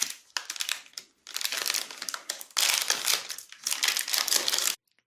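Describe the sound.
Crinkling of snack wrapper packaging from Milchschnitte bars being handled: loud, dense crackling in four long bursts separated by brief pauses, with no voices.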